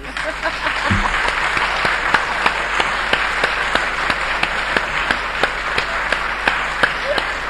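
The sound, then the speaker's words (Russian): Audience applause fills the hall, a loud, steady and even clapping that keeps a regular rhythm throughout without fading. “Товарищи, товарищи, за что вы хлопаете?”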